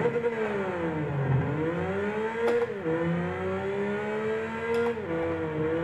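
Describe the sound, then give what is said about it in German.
Honda NSX engine revving while lapping the Nürburgring in a racing video game: a loud, steady, buzzing engine tone that dips and climbs again at a few gear shifts, with no talk. “Und wir fahren jetzt ein bisschen um den Nürburgring, schlage ich vor, und ich erkläre Ihnen dabei, weshalb ich gerne Autorennspiele spiele.”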